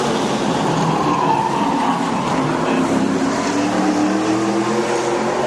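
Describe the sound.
A racing car laps a track during qualifying, four laps into a set of tyres that are up to temperature. Its engine gives a continuous, loud droning roar with a steady pitch throughout.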